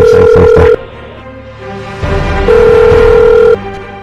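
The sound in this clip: Phone ringing tone on a call line: two long, steady electronic tones separated by a pause of about two seconds, loud and clear with no talk over them.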